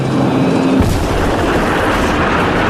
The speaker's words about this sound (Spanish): ya explotó. Sí, la última pirámide de comando DIV terminó para siempre.